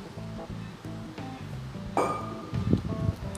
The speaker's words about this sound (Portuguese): bebendo uma água aqui, pessoal, só um minutinho.